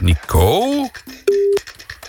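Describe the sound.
A telephone line tone sounds as a radio host calls a listener. A voice speaks first, then a brief low beep is followed by a steady, higher electronic tone lasting about a third of a second.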